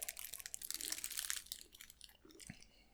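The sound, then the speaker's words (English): Crinkling and crunching of plastic wrapping, with a stuck label, as an item is unwrapped. Many irregular crackles come densely at first, then thin out and grow fainter, with no talk. “I can't get mine unwrapped. Let's have a look. Oh, it's got label stuck to mine as well and plastic.”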